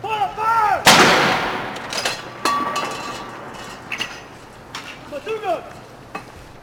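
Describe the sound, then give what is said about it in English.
Artillery fire from a 62-gun salute fired by the Royal Gibraltar Regiment at the Tower of London: one loud, booming report that rolls away slowly, then a few fainter, sharper shots spaced unevenly. “The Royal Gibraltar Regiment marked the Queen's birthday on Saturday by firing a 62-gun salute from the Tower of London.”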